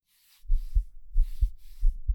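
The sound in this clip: A pounding heartbeat, three low, heavy double thumps in a steady lub-dub rhythm with short gaps between them, alone against silence.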